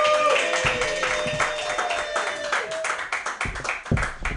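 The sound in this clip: Audience applause for a comedian at an open mic comedy night, steady clapping with a voice over it early on, the claps turning sharper and more scattered toward the end.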